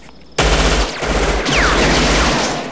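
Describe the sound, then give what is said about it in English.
Gunfire exchanged in a shootout between two gunmen, one behind a rock and one behind a monument: loud, sharp shots erupt abruptly and continue as a sustained, dense roar of fire with a few stronger cracks, no voices. “They exchange fire, Chico behind a rock, Scorpio behind the monument.”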